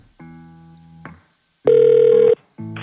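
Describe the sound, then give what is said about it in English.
Ringback of an outgoing telephone call: three electronic ring bursts with pauses between them. The second is louder and brighter than the first, and the third is cut short. “We are trying to dial you now.”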